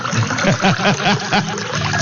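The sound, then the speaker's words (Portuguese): Mineral water glugs from a bottle into a drinking glass in a series of short, bubbly pulses with a wavering pitch, steady and fairly loud throughout with no talking. “E eu vou preparar meu copo com água aqui também, ó. Beleza. É água da mina, gente.”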